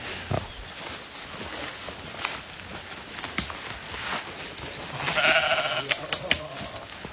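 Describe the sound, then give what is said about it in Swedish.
Sheep bleating on a mountain pasture: a clear bleat rises out of a busy outdoor background of soft scuffs and patter, with other faint animal calls scattered through. “det är ju får här. Alltså det finns folk som är här på somrarna fortfarande. Vi har 2 familjer som har fårskötsel här, fårbönder. Ja, så de håller ju lite öppen med bete.”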